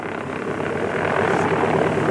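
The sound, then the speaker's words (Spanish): Engine roar of an overloaded airplane trying to take off on a soft, wet, muddy runway: a steady, loud, dense drone that swells slightly during the first second and then holds at full power. “Nunca despegará. La pista está muy blanda y húmeda. El avión está sobrecargado.”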